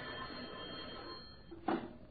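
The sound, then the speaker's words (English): A telephone bell rings at the Argus Hotel, a faint, steady buzzing ring that runs throughout, with a short louder burst near the end. “Argus Hotel. Who? Oh, yeah. Hey, you guys in there? Yes, ma'am. Somebody wants you on the phone.”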